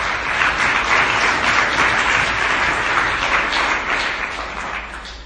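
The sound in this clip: An audience gives warm applause to welcome an astrophysicist up to lecture on a fine-tuned universe. The clapping is loud, dense and continuous, easing slightly near the end.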